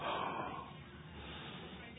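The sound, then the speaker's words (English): One deliberate exhalation through the nose during breathing practice, a breathy rush loudest at the start that fades over about half a second into quiet. “So right now, you exhale purposely.”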